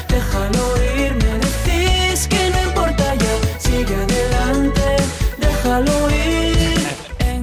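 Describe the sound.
A song from a singer's new album plays, loud and continuous, with dense, full instrumentation and a steady driving rhythm throughout.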